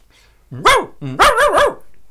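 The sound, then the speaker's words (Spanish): A person imitates the bark of a giant, muscular, snub-nosed dog scaring off strangers. There are a few loud, voiced barks: one on its own, then a quick run of several more, with no other sounds. “¿Te acordás cómo era tu ladrido para ahuyentar a algún extraño? Sí, ¿quieren que lo haga?”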